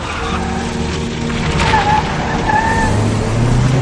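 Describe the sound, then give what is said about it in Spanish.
An SUV driving off with a car chasing after it: steady, dense engine and road noise runs throughout, with a low engine hum that swells and rises toward the end. “El todoterreno se marcha. Dentro de su coche, Paolo va tras ellos.”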